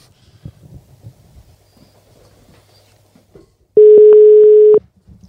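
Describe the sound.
A telephone tone as a call is placed: one steady, loud, even-pitched tone lasting about a second, following a stretch of faint low rumbles and soft clicks.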